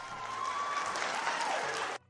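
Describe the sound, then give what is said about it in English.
Audience applauding as a speaker is cut off, a faint but steady patter of many hands that holds level and then stops abruptly just before the end. “I assume they were applauding her getting cut off.”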